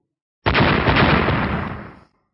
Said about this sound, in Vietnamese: Hai tiếng nổ vang lên